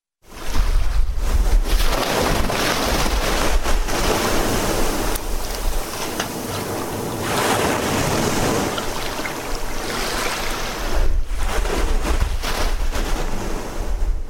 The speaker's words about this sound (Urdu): گڈانی شپ breaking کے ساحل پر موجود oil tanker سے سمندر کا پانی ٹکرا رہا ہے